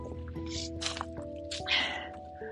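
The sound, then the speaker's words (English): Soft trickling and dripping of water in a small creek running low, with a few brief splashy bursts over a steady background. “So we have a little creek where I live. It's running quite low on water, but there is some water running through, as you can hear.”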